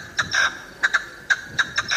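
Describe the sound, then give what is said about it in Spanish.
Partridge call: harsh, grating, rhythmic notes repeated many times in quick pairs and singles at a moderate level, with no voices over it. “Una perdiz. La perdí. Eso es una perdiz. Es una perdiz.”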